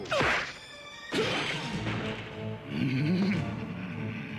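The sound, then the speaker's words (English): A horse rearing up and punching a man, heard as a whooshing swing and two loud, sharp whacks, followed by rougher scuffling noise. “As Bravestar reaches for the gun, the horse, now standing upright, punches him.”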